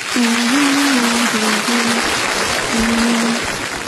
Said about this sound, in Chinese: 拿起坛子，拍拍，扔起来了， 顶 顶上了，这观众又鼓掌呢。